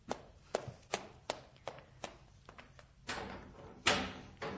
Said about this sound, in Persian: خیلی خوب، برو در باز کن.